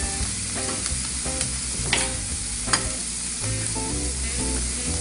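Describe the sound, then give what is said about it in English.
Two eggs being scrambled in a hot pan where chopped spinach is cooking: continuous sizzling with scraping and stirring, a few sharper clicks, steady and moderately loud with no talk. “And while that's going on, I'm gonna scramble my eggs. You see this goes really fast. So scramble my two eggs.”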